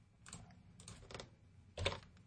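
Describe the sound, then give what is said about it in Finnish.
Faint typing on a computer keyboard comes as a few scattered clusters of soft key clicks, with one louder burst of keystrokes near the end and no talking. “Eli täällä kirjoitan jotakin ja päästän painikkeen ylös”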